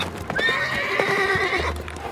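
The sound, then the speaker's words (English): A horse whinnies loudly in one long, wavering call, pulling a chariot, with hooves clip-clopping faintly beneath. “Then the Spirit said to Philip, go near and overtake this chariot.”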